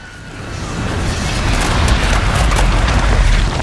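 Deep roaring explosion as a man's blazing body, spurting lava, bursts apart. A dense low rumble swells over the first second and a half, then holds loud and steady to the end.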